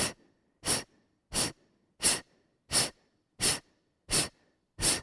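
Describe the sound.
A group exhales strongly in a breathing exercise, forcing out eight sharp, hissing breaths at a steady, even pace, each one loud and clipped, with near silence between them.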